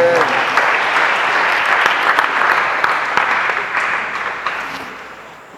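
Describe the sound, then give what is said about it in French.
Loud applause from an audience acclaiming God, a dense, continuous wash of clapping that slowly tapers off in the final seconds. “Acclame Dieu si tu as compris ça.”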